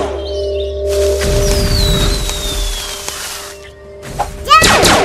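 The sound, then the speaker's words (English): Bombs explode against a bomber pod in a video game. A long descending whistle sits over a low, rolling rumble, and a cluster of sharp thumps and crackling bursts follows near the end. “200 damage to bomber pod by impact. It hit itself with the bombs.”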